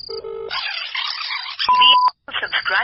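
A phone call rings out, with a steady electronic tone that holds for a moment and then cuts off abruptly, between other busy, noisy sounds.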